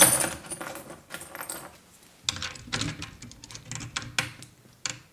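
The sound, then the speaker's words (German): A bunch of metal keys and lock picks jangles and clinks in several irregular bursts, with short quiet gaps between them and no voices. “Für diese Fälle habe ich immer einen Bund Schlüssel und Dietriche bei mir.”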